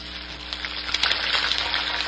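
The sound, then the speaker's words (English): Turkey deep frying in hot cooking oil gives a steady, dense sizzle with fine crackling pops throughout, with no voices. “Like your turkey deep fried?”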